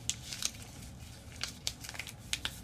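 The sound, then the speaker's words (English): Paper is folded away from the body, giving faint, scattered crinkles and soft crackles over a low hum, with a few slightly sharper creases spread through. “you're going to want to take the paper and you're going to want to fold it away from you, okay? You're going to fold it away from you”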